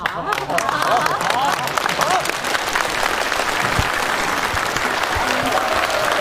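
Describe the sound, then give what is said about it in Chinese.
Sustained audience applause at a wedding celebration: dense, steady clapping from many hands that holds at an even loudness for the whole stretch, with a murmur of crowd voices mixed underneath. “那我们接下来用热烈的掌声，有请沈明珠女士”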